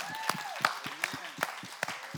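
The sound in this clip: An audience claps to welcome the youth at an evening church service, giving steady, evenly spaced claps mixed with voices.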